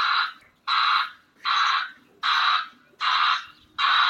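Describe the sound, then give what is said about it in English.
An Amazon delivery van's reversing safety alert sounds a regular chain of evenly spaced electronic beeps, each a bright two-toned pulse lasting under half a second, repeating at a steady rhythm with short gaps and no voices. “That's the safety alert sound of an Amazon van backing up.”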